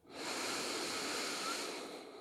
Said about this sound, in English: And we take that deep breath in.